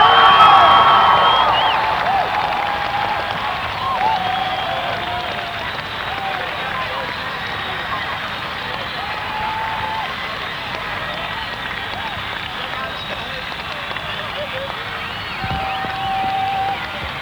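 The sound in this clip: An audience cheers and applauds as The Clash, from Ladbroke Grove, London, are introduced at an afternoon concert in California. The broad roar of clapping and whoops is loudest at the start, then eases into a steady wash.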